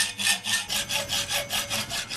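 Rasping back-and-forth strokes of a hand saw cutting through a steel bar for a handmade vehicle frame, repeating in a quick, even rhythm, fairly faint, with no talking.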